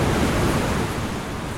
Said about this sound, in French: Donc là, on est sur la plage de Parlementia, on marche sur le sable. Donc on va se mettre à l'eau sur la vague de Parlementia, d'Idar Guettari.